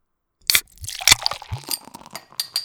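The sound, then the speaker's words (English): Opening a cold beer: a few sharp cracks and crunching bursts mixed with glassy clinks, moderately loud and with no voices. “It's time to crack open a cold one with the boys. I deserve this beer.”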